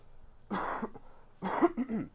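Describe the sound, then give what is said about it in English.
Two fairly quiet, rough coughs from a man, separated by a short pause. “sorry guys for the coughing.”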